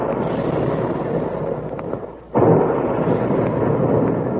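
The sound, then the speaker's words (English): A sudden loud boom from big cereal puffing guns firing at a Quaker plant, where wheat and rice are shot from guns. It bursts out of a steady rushing roar and is followed by a sustained, heavier roar. “And there go the big guns, reminding us all that puffed wheat and puffed rice actually are shot from guns right in the Quaker plant.”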